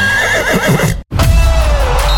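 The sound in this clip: A horse neighs in a loud, shaky, wavering whinny. After a brief cut to silence, dense noise follows with a lower, sustained tone beneath it.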